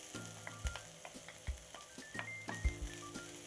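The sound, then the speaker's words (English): Onion sautéing in olive oil in a pan, a steady, quiet sizzle broken by a few soft knocks of stirring. “I'm going to put some olive oil in my pan, and I'm going to just saute the onion for about a minute or two, and then add the garlic.”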